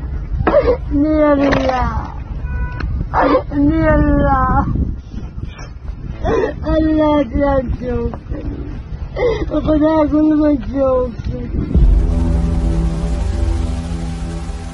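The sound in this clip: A mother wailing at the grave of her 27-year-old son: a high, wavering crying voice rises and falls in repeated sobbing phrases with short breaks between them, then gives way to a steady tonal drone.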